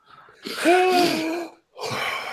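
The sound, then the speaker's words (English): A deep, wheezy breath from an asthmatic person, drawn in for about a second with a thin whistling tone, then a brief pause and a shorter rasping breath. “I was taking a deep breath because I'm asthmatic and sometimes I run out of breath halfway through the plug.”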